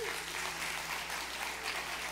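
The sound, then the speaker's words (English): Faint, steady applause from a church audience honouring viewers watching online, a low continuous patter of many hands with no distinct individual claps standing out. “Give it up for our online audience, if you would, everybody.”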